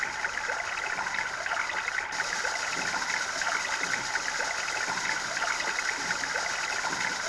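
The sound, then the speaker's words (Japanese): Steady rush of river water flowing past a riverside water wheel, heard as an even, continuous hiss that keeps the same loudness throughout. “これはね、川のほとりにある水車の音です。”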